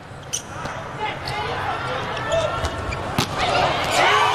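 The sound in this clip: A volleyball is struck for a serve during an Italy match with the score tied 18-18. A few sharp ball impacts stand out over steady background noise, with talking throughout.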